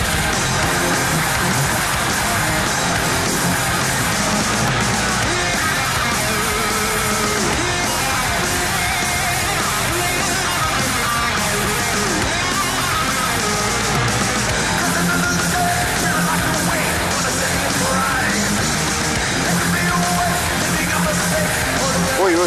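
A live heavy metal concert recording, loud and dense throughout, with distorted guitars, drums and crowd noise merged into a constant roar that never lets up.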